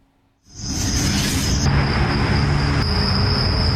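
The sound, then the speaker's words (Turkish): Crickets chirp at night in Adana, where a growing population keeps residents awake. A loud, continuous high-pitched buzzing chorus starts abruptly after a brief near-silence, with a broad rushing noise beneath it, and holds steady to the end. “Her gün cırcır böceği sesinden, gürültüsünden, kendisinden uyuyamaz olduk.”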